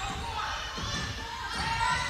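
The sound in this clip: A basketball is dribbled on a court during a game, with a few dull bounces under a steady wash of crowd noise.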